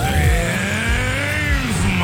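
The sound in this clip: A car engine revs in steady, continuous bursts, its pitch climbing and dipping several times over two seconds at a constant loud level.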